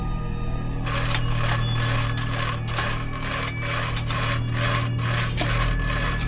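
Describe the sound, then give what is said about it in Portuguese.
Frantic sawing at a padlock on a ground floor: a long run of quick, rough rasping strokes in a steady, driving rhythm, loud and continuous over a low hum. “Vocês chegam lá no térreo, vão em direção ao cadeado e começam a tentar serrar loucamente.”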